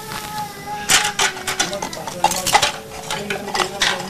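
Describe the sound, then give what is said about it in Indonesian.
Soup being cooked in a pot: a utensil clinks and scrapes against the metal in irregular bursts of bright, clattering stirring, with a voice talking alongside. “Nih, masak sop aja nih.”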